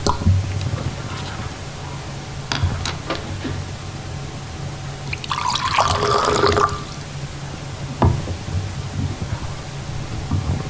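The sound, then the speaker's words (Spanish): A champagne bottle is uncorked and poured for a celebration: a few sharp clicks and pops, then a fizzing, hissing pour lasting over a second, followed by another faint click against quiet background noise. “Descorchan una botella de champán para celebrar el encuentro.”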